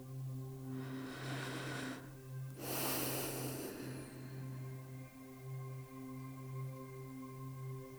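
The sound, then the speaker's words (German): Deep, deliberate breathing during a guided mindfulness exercise: one long airy inhale, then a longer exhale, both soft and faint over a quiet sustained musical drone. “Atme bewusst tief ein und aus.”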